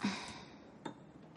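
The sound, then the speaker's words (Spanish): A glass is set down on a table after a toast, giving a single faint, short clink with a brief ring that stands alone over near silence. “Brindan y Max bebe, pero Juliet deja su copa sobre la mesa.”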